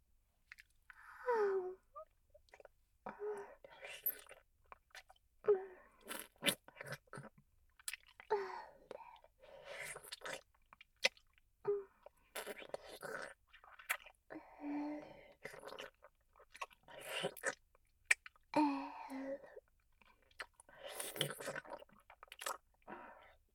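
A person chews food with a strong smell, giving many soft, irregular bursts of chewing and crunching with quiet breaths between them, faint throughout.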